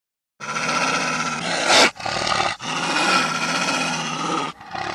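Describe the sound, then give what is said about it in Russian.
A wolf growls in a snowy setting: a long, harsh, continuous snarling growl with a sharp louder burst near the middle, broken by brief pauses and running on strongly alone. “Волк, стоявший впереди, зарычал, показал свои громадные зубы.”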